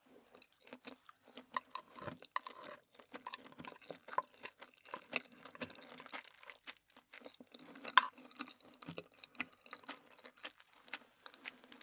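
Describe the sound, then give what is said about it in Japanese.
Crunchy chewing of a bread crust, with many dry, crackly bites and mouth sounds in an irregular rhythm, fairly quiet and with no talking. “間違って耳食べちゃった間違えて耳食べちゃいました。”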